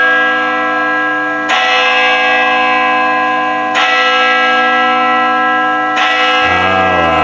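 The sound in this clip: Church bells ring loudly and excessively, the bells that also serve as a town clock. Three strong strikes each bloom into a sustained, richly resonant ring that overlaps the next, with no talk.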